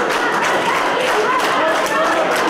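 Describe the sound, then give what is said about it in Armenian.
Applause from supporters of Armenia's second president Kocharyan, giving him a standing ovation at a court hearing on his detention; dense, steady clapping fills the whole stretch, mixed with crowd voices. “Երկրորդ նախագահի աջակիցները հոտնկայս ծափողջույներով դիմավորեցին նրան։”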